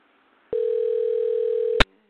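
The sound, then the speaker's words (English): A telephone dialing tone: one steady, mid-pitched hum lasting just over a second after brief quiet, cut off by a sharp click, with no talk. “So it should be dialing soon”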